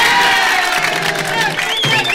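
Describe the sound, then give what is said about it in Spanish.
Cheering and whooping from a live comedy-show audience after a joke, a dense, loud roar of voices with some shrill, childlike shouts running through the whole short burst. “¡Un aplauso para el hombre!”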